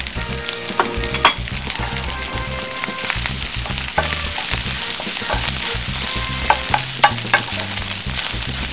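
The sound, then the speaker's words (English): Rice sizzles loudly after going into a hot, oiled pan, with a steady crackling fry and the scrape and clatter of a utensil as it is stirred; no one talks. “now I'm gonna add my rice.”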